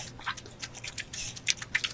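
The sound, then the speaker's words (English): Sped-up chewing and biting from a mukbang eating video: many quick, wet smacks and crunchy bursts packed closely together at a fairly low level. “It's a mukbang. That this right is there. Sped up, too. That's gross.”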